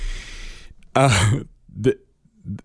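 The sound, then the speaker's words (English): Throat clearing set off by a sudden tickle in the throat: one loud, rasping voiced burst follows some talk, then two shorter, quieter clearing sounds. “Oh, what a surprise tickle in the throat. I'm not editing that out.”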